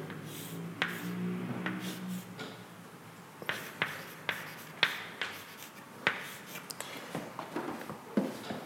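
Faint writing strokes make many short, sharp ticks and scratches in an irregular rhythm, with no talking.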